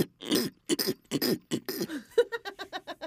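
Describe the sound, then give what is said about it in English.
A person makes a pig-like snorting throat-scratch noise: a few rough, gravelly bursts, then a quick rhythmic run of short nasal grunting pulses, fairly loud and with no speech. “It's a throat scratch. It's a throat scratch. Where are my throat scratchers that do this?”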